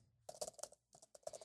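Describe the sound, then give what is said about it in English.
Typing on a computer keyboard: two quick bursts of crisp, faint key clicks separated by a short pause, with no talking. “I just want to type exactly what you just said right in there.”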